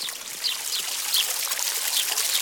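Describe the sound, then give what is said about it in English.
Water pours into a jug, a steady bright trickling splash that runs unbroken through the whole clip at an even level, with small bubbling flickers on top. “give me the jug, Bert. Can I fill it?”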